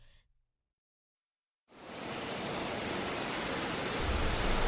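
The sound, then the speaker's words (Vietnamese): A stormy sea with foaming waves and strong wind sets in abruptly after near silence. It becomes a dense, steady, loud roaring rush that holds at full strength to the end without a break. “mặt biển đục ngầu, sóng biển sủi bọt ùng ục, gió càng lúc càng mạnh.”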